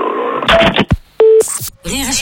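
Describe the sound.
Telephone dialing as someone calls the police. A short burst of speech is followed by a clear, steady electronic tone, then crackling line noise.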